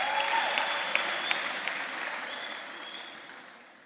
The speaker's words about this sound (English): Come, I need an audience. There we go. Give them a hand.